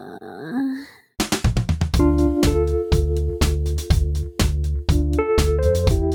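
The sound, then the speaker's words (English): A person gives a short, low vocal groan lasting about a second, followed at once by loud, rhythmic music with a steady beat. “I'll give them a groan.”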